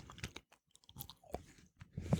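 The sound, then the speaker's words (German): Someone chews and bites into a chili sausage, giving quiet, crunchy mouth sounds in a few short bursts separated by brief pauses. “Jetzt esse ich mal hier so ein Würstchen. So, Neutralisierungswürstchen.”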